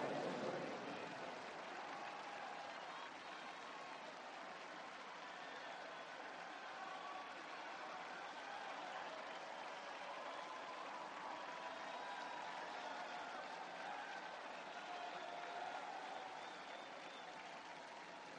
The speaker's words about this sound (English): Al Sharpton having some fun at the podium and the audience responding wholeheartedly right there.